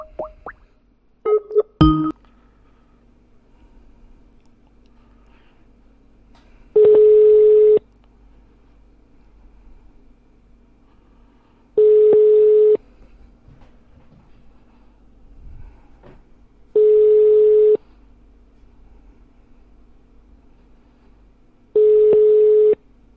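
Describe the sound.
A telephone call being placed: a few sharp clicks near the start, then four long, steady ringback tones, each about a second long and spaced roughly five seconds apart, over a faint hum.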